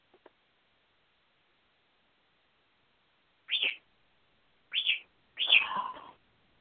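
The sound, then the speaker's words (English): A pet bird gives three short, high chirps spaced apart; the last is longer and rougher than the first two. The calls are faint against near silence. “Go to bed, little bird.”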